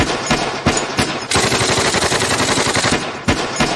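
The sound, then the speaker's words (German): Gunfire from shooting practice in a television series: a few sharp single shots, then a dense, rapid burst of automatic fire, then more loud shots. “hier in der Folge, dass geschossen wird. Das erste Schießübungen sind.”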